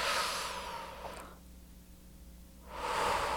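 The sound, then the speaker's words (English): A slow, deep breath: a loud, airy rush of breathing, then a quiet pause of over a second, then a second breathy rush of air. “Take a deep breath.”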